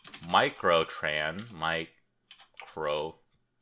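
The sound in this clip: Typing on a computer keyboard: a run of quick, light key clicks under a murmuring voice, with a short pause partway through.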